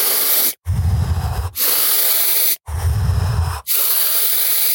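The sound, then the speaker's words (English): Deep breathing in through the nose during a demonstration: long, loud airy hisses in a steady run, each breath separated from the next by a brief silent gap. “Ideally, I would suggest through the nose. We deliver about 20% more oxygen when we breathe through our nose. So it would be like this.”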